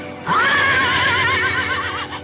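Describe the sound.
A horse gives a loud, sustained whinny lasting about two seconds, its pitch wavering and trembling throughout, heard alone.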